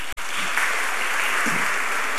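Dense audience applause for a woman who answered a quiz question correctly, steady and even in loudness for the whole stretch, with one brief dip near the start.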